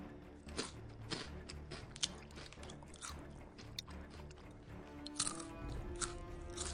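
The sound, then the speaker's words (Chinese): Chocolate biscuits being crunched and eaten, with a few faint, crisp bites and chewing crunches scattered irregularly across a quiet background. “味道怎么样？好吃吗？是你最喜欢的巧克力饼干。”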